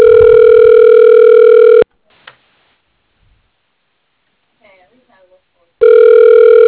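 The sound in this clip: Telephone ringback tone as an automated directory system connects a call. A steady electronic ring lasts about two seconds, followed by roughly four seconds of near silence with a few faint clicks, then the ring starts again.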